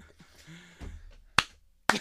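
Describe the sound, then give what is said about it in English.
Two sharp, isolated claps land about half a second apart in a slow clap, each crisp and loud against an otherwise quiet, faintly murmuring background. “Well done. Okay. Well done. Slow clap.”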